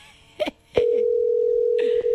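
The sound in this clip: Telephone ringing tone of an unanswered call: after a short burst of other sound, a single long, steady mid-pitched tone starts and runs unbroken to the end.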